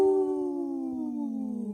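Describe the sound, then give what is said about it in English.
A person imitates a wolf howl with a single long, steady voiced tone that slowly slides downward in pitch, sustained and fairly loud with no other talk. “Howling for Wolves, protecting wolves for future generations. Howl! Howl.”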